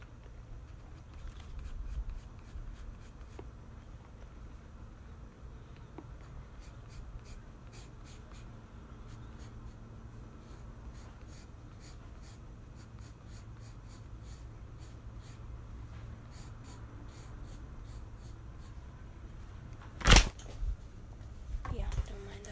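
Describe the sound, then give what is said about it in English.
Pencil drawing hair on paper, heard as faint, steady scratching with bursts of quick short strokes over a long stretch, and a sharper louder knock near the end. “So next, I'm just gonna draw my hair.”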